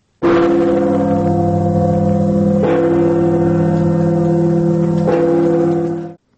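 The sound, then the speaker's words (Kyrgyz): Church bells ring out at noon, marking the 1025th anniversary of the Christianization of Kievan Rus, with churches across three countries ringing nonstop for fifteen minutes. Three strong strokes land over a loud, sustained, humming metallic drone. “Үч өлкөнүн чиркөөлөрү 15 мүнөт бою тынбай коңгуроо какты.”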